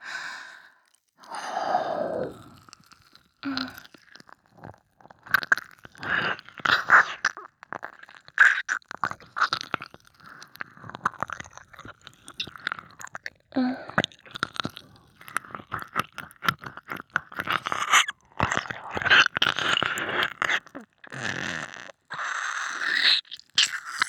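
Wet ASMR mouth sounds of nibbling and licking an ear: many soft clicks, smacks and slurps in an irregular stream, mixed with breathy sighs.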